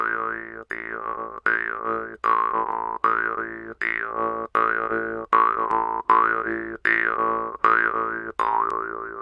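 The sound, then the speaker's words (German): A jaw harp, its metal tongue plucked while held at the mouth, twangs in a steady rhythm of many repeated notes, each with a buzzing drone and a wavering, wah-like overtone that shifts as the mouth changes shape. “Man hält die Maultrommel an den Mund und zupft an der Metallzunge. Der Mund ist der Resonanzkörper, also wie bei einer Gitarre der Gitarrenkörper. Eine Maultrommel klingt so.”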